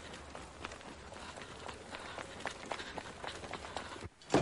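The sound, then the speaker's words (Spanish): Quick running footsteps as a woman hurries away, many steps in a fast, fairly even rhythm. “Erika se aleja con paso rápido. ¡Alto ahí! ¡Ven aquí, zorra! Corre.”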